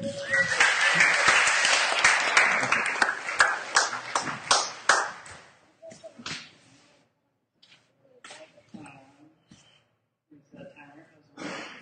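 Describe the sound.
An audience applauds to welcome the next speaker, with dense, loud clapping for about five seconds that thins out and fades, followed by scattered sounds and a voice speaking.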